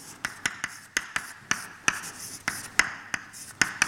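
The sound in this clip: Hand-written strokes set down an equation, heard as many short, crisp scratches and taps in a steady, slightly uneven rhythm, alone with no voices.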